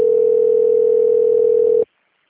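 Telephone ringing tone on an unanswered call: a single steady, loud, mid-pitched tone holds for nearly two seconds, then cuts off abruptly into silence.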